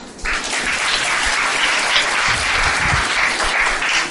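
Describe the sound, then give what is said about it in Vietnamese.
Loud applause from an audience at a Buddhist teaching talk bursts in just after the start and carries on as a thick, steady roar of many hands clapping, without pause or fade. “Nghe cái đó ai cũng vỗ tay hết”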